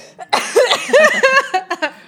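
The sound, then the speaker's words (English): Harsh, loud coughing comes in a quick run of several bursts, with short gasps between them and no talking. “why are we both coughing tonight?”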